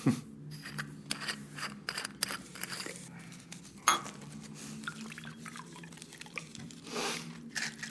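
Crunchy bites and chewing of roasted almonds, a series of irregular, fairly faint cracks and crunches over a low steady background.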